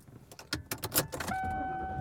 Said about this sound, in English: And I am driving around.